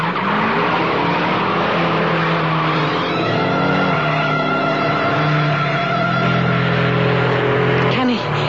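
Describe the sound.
Race car engine roaring hard as it speeds around a curve on a track, tires squealing and skidding. The loud, steady drone holds throughout, with a sharp rising whine near the end.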